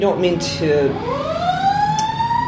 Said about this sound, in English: we don't mean to talk over the ambulance.